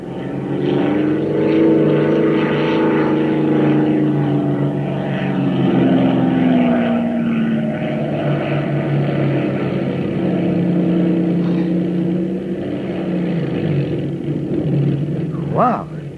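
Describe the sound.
A propeller airplane lands on a road, its engine a loud, continuous droning rumble with a steady harmonic hum that holds throughout.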